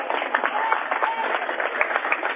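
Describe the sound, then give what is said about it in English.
Steady crowd applause at a basketball game as a player leaves the court for the bench, a dense, even patter of many hands running the whole time with a voice talking over it. “Got a big round of applause from the faithful following him.”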